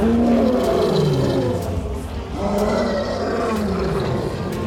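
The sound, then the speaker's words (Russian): A lion and lionesses roar in an animated film, overlapping in loud, rough, layered roars that rise and fall without pause for nearly five seconds, with no talk. “Сдержанно улыбнувшись, широко открывает пасть. Ему вторят львицы.”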